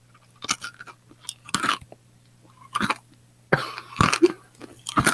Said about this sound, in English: I'm going to eat an M&M for you guys.